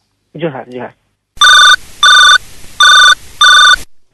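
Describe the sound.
A telephone rings for an incoming caller in four loud electronic bursts at an even pace. A voice speaks briefly before the ringing starts.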